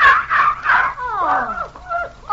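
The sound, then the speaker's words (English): A voice imitates a dog whimpering with a hurt paw: three short, loud yelping whines, then drawn-out whimpers that slide downward in pitch, followed by a few thinner whining cries. “Oh, you poor little doggie. Oh, Monty. Honey, you must have hurt your paw.”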